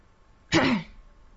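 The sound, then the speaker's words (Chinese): A single short throat-clearing cough at a doorway, a brief raspy burst that stands alone against near silence. “门口传来了两声咳嗽”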